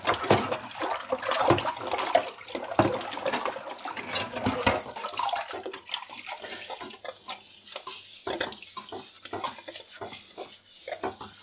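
Dishes being washed by hand, with a ladle set to soak in chili-tinged dishwater and a large pot's lid handled: continuous sloshing and splashing water mixed with many small clinks and knocks, no voices.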